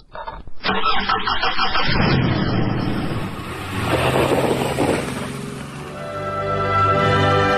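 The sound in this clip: A car engine starting: a few quick clicks, then a loud, broad rumbling roar that swells, eases and swells again, ending in a steady humming drone.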